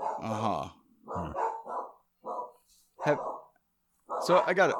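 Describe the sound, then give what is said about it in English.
Dogs bark and yip excitedly in a few short, loud harmonic bursts separated by brief gaps, with a rough, growly edge on some calls. “I heard that. Dogs, huh? Dogs freaking out in the background.”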